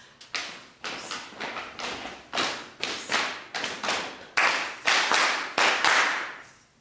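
Children stomp their feet in rhythm during a choir rehearsal: many heavy thuds in a steady, even beat, each landing with a sharp attack and a short decay, with no talk over them.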